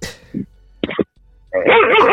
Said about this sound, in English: Give us a bark on the way out?